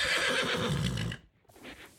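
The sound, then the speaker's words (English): A rodeo horse kept on a property west of Pinoca neighs with a loud, wavering whinny lasting about a second, then a softer, breathy sound follows after a short gap. “I have a couple horses here.”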